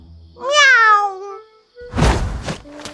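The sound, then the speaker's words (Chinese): A child's voice imitates a cute cat meow: one drawn-out, high, wavering mew, followed by a few brief noisy thumps. “要学一声猫叫，尽量可爱点。 猫叫。”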